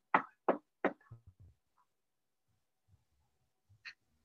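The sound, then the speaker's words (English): Three sharp knocks on a door come in quick, even succession. Faint small rustles and a soft tap follow in near quiet. “nice little knock on the door.”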